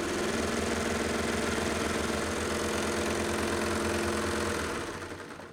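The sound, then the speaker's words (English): A Baby Lock Enlighten serger overlock machine, set to stitch length three with differential feed on N, runs at full speed as a loud, steady, engine-like hum with a rapid mechanical rattle, then slows and fades near the end. No one talks. “Do you want to know how fast this serger will sew? it will sew this fast.”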